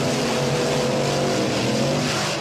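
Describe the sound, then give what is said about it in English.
Monster truck engine roaring in a loud, sustained, low rumble that stays steady throughout, with no talk. “Yes, that was a monster truck.”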